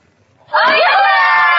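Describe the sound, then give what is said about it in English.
Fifth graders in a Los Altos, California math class using Khan Academy burst into loud, high-pitched cheering after a brief quiet moment. The excited shrieks and shouts stay strong and sustained until the end. “What makes fifth graders cheer? Would you believe math?”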